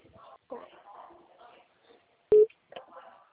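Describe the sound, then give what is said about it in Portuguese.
A single short, loud telephone busy-tone beep after a dropped call, set among faint voices talking before and after it. “A ligação acabou caindo.”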